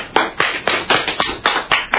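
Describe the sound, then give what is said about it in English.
Lone applause from a school principal at a grammar school announcement: eight sharp, loud claps in a steady, even rhythm, each one distinct and standing alone with no crowd behind it. “Now, at that point, only the principal, the bureaucrat, was applauding. So it was her and the principal that were applauding.”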